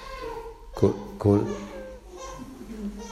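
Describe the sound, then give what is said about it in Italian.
A baby babbles during a meditation: two short voiced bursts close together, followed by softer trailing vocal sounds over a steady low hum. “Ah, ecco, il bambino ci fa sentire che lui c'è, forse per dire che la meditazione ormai dovrebbe finire.”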